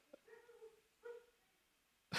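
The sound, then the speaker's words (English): Faint dog whimpers, two soft drawn-out whines with a thin tonal quality separated by a short pause, then a brief louder burst of noise at the very end. “I hear my dog. Is that your dog?”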